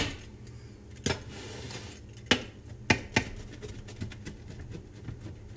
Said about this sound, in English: Cut it in quarters.